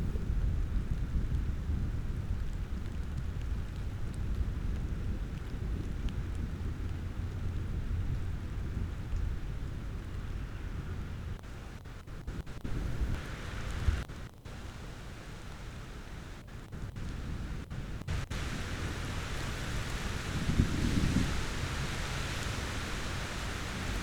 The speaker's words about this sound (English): it's obvious we don't have very big thunderstorms over here in Utah.